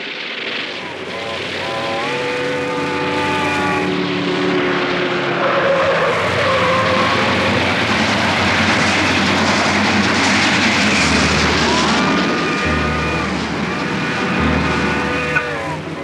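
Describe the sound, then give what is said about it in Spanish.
A truck's engine roars as it speeds across ahead of a train, a loud sustained rumble with a steady tonal whine rising over it at times, staying intense throughout. “El enorme luchador maniobró bien, imprimiéndole al vehículo la suficiente velocidad. El camión cruzó antes que el ferrocarril.”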